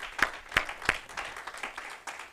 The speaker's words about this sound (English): another hand clap of praise